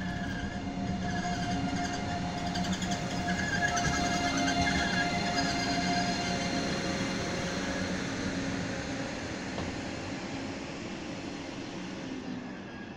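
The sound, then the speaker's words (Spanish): A train rumbles as it comes to a stop at Vilches station in Jaén province. It gives a steady, continuous low rumble with a faint mechanical hum, easing slightly in loudness toward the end, with no voices. “El tren se detiene extremadamente puntual en Vilches”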